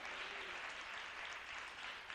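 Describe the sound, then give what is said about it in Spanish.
Applause from a church audience honouring the Lord, a dense sustained clatter of clapping hands that holds steady for the whole stretch, with no voices standing out. “Dele un aplauso al Rey, ya que se lo está dando, déselo al Señor con todo el corazón.”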